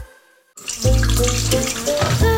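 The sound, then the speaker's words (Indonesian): Tap water runs into a sink while dishes are washed. After a brief quiet, a steady, loud gush starts and continues unbroken, with faint clinks in the stream. “Nanti aja lah cuci piringnya, tumpuk aja lah dulu.”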